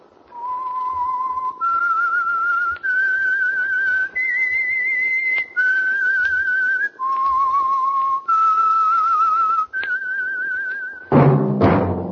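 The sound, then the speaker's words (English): Whistling of a tune used as a program's signal: a lone whistler holds a string of clear, steady notes that step up and down with slight vibrato, ending in a short, loud burst of broader sound. “That whistle is your signal for the Signal Oil Program, The Whistler.”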